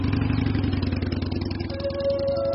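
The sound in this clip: A motorcycle engine on a ride to an old ancestral haveli in Rajasthan gives a steady, rhythmic low throb with rapid regular pulses, moderately loud and continuous with no talk.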